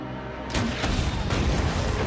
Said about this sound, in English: Connor stands and fires a grenade at the fallen HK.